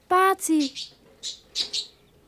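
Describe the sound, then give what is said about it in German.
A caged bird chirps: a loud harmonic squawk opens, followed by a few short, high, separate chirps with quiet gaps between them. “Der Vogel sitzt da im Käfig.”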